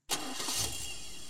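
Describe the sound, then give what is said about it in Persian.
A car engine starting up again, cranking into a sudden, loud burst that settles straight into a steady, full-bodied running rumble with no voices. “پس بریم از باغ بالا و موتر دوباره روشن میکنم”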